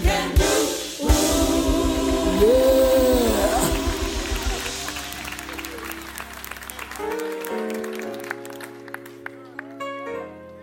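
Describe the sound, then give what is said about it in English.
A church audience claps in rhythm for several seconds before the clapping thins out. Sustained musical tones and a voice carry on over it. “I know what prayer can do. Everybody clap.”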